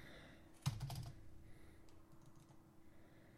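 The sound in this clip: A computer keyboard is typed on quickly while answering emails: a faint, quick burst of keystrokes near the start, then a few sparse, softer taps.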